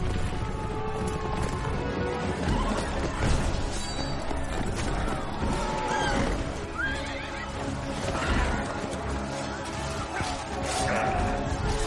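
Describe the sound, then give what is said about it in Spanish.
Horses neigh and whinny amid thundering hooves as patriot cavalry and an Irish brigade charge the enemy in a battle scene. The loud, dense clamour of hooves, crashes and whinnies runs continuously throughout. “Ahora los patriotas a caballo acompañados por la brigada irlandesa corren hacia el bando enemigo.”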